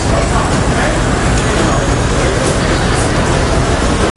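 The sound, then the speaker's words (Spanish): A busy New York City street in Manhattan in the morning gives a dense, steady roar of traffic mixed with crowd babble. It stays loud and continuous, then cuts off abruptly at the end. “Este es el sonido de Nueva York a las 8:30 de la mañana del 11 de septiembre de 2001.”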